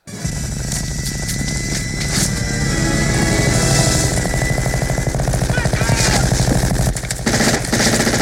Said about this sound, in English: Jesse dies and he just starts emptying the goddamn minigun? Oh, he wastes all the ammo. We have to hear that.